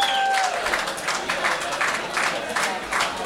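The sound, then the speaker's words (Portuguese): A crowd applauds at a song festival with dense, uneven clapping that surges in rhythmic waves throughout, over a steady noisy background. “Uma salva de palmas para Broxi.”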